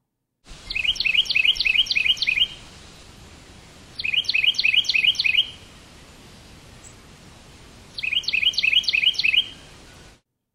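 Bird chirping in three bursts of rapid, high, repeated chirps, each burst lasting a couple of seconds and separated by pauses, over a steady background hiss.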